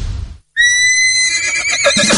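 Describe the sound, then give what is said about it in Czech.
A horse neighs in one loud, drawn-out whinny with a shrill start and a shaky, fluttering tail, following a short burst of noise and a moment of silence. “Máte rádi koně?”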